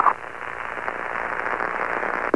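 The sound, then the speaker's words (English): CB radio static, a steady band-limited hiss with a sharp carrier click at the start and another right at the end. “The carrier clicking, the static in the background?”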